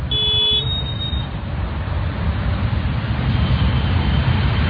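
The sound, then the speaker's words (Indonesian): A bus comes to a stop amid road traffic. A steady, loud low engine rumble and traffic noise fill the scene, with brief high-pitched tones at the very start. “Bis pun berhenti.”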